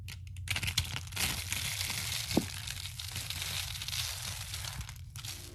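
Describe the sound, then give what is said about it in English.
Soap curls being crushed give a continuous crackly crinkling, with one sharper crack near the middle and no talking. “And they have a YouTube channel where they show them making the soap curls and then crushing them.”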